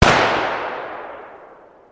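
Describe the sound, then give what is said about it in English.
A single sniper rifle shot sound effect: one sharp, loud crack that hits at once and then fades away slowly in a long, smooth tail lasting about two seconds. “you drop to the ground as a sniper bullet pierces through your chameleon suit and out the other side”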